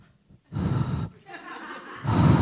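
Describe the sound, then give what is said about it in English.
A voice imitates loud, heavy breathing in a few breathy, gasping bursts, each a rough rush of air. The middle one is softer than the last. “I all of a sudden became very aware of my breath.”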